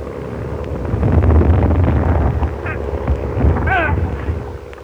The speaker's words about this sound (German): Mit drei Maschinen beflogen? Nein, Mike. Die Sache gefällt mir nicht. Ach was. Sie halten Kurs direkt auf uns zu. Wir beide sind nicht so interessant. Das Arbeiterhaus. Doch, Mike. Du! Lass doch. Die werfen Bomben!